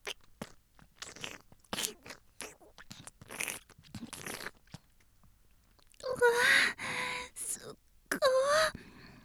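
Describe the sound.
Someone bites and chews food in a series of sharp, crunchy bites, then makes several longer, louder voiced sounds toward the end.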